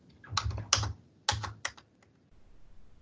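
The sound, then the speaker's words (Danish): Computer keyboard typing as an amount is entered into an online application form: two quick clusters of crisp key clicks separated by a short pause, then a few isolated taps before quiet. “Så taster man et, et ansøgt beløb.”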